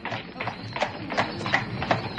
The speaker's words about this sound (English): He jumped into a hansom cab! Oh. I can see another! Over by the church! Yeah, cabman, hurry!